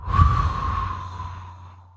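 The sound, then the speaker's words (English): A forced breath out through the mouth during a breathwork meditation: one long, steady exhale of soft rushing air that starts strong and gradually fades away over about two seconds, with a low hum underneath. “So deep breath in, forced breath out, blowing out all the contents of the mind.”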